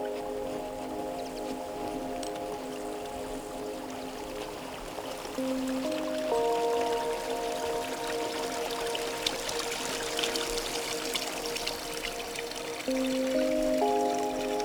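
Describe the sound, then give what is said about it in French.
Gentle lapping of water makes a soft, steady wash that runs the whole way through, with sustained held tones beneath it. “serez-vous sensible à ce doux clapotis ?”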